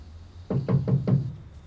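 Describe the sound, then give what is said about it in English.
Knocking on a door: four evenly spaced, firm knocks heard on their own, each a dull wooden thud. “What was that? My door. Someone's at my door.”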